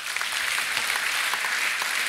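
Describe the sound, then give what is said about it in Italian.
Audience applause welcomes a guest at a discussion event, a dense, even patter of many hands clapping at a moderate level, with no voices. “Il primo, e vi chiedo di salutarlo con un applauso, è Christopher Caldwell,”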